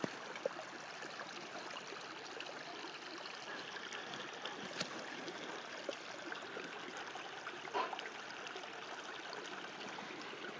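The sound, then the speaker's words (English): Running water flowing along the sides of a path, a steady, continuous rushing trickle that holds an even level throughout with no voices. “I guess the sound of water that runs like that”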